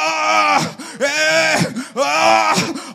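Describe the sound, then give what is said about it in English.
A church audience at prayer groans together in loud, drawn-out voices that swell in three long waves, each rising and then fading with brief gaps between them. “You are groaning. Go and do something.”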